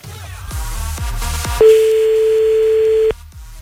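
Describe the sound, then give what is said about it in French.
Telephone ringing tone heard while calling someone back: one loud, steady, mid-pitched tone lasts about a second and a half after several rhythmic low thumps, then stops abruptly. “Attends, on le rappelle encore un coup, là.”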